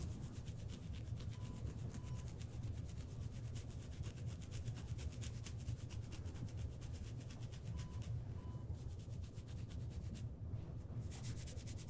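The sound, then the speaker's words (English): Scraping of something being removed from a person's head: a steady, continuous rasping rub that holds an even loudness throughout, with no pauses and no voices. “Just sit still and I'll remove them from your head. Just going to scrape them off and get them out.”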